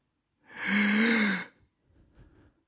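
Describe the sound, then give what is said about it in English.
A single deep breath drawn in, a strong, roughly one-second inhalation with a slightly voiced gasping edge. Fainter, softer breathing follows. “All I need to do is breathe. In.”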